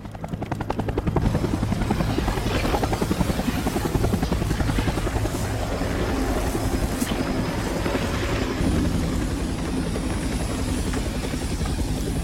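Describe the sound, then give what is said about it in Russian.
A helicopter's rotors thump and its engine roars as a military unit boards it, a loud, steady, unbroken drone with rapid blade pulses through the whole clip. “Альфа грузится в вертолет.”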